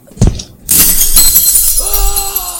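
Window glass shattering in a video game as a character jumps out: a loud, bright burst of breaking glass that becomes a sustained crackle and tinkle of falling shards, with a steady tonal hum joining near the end.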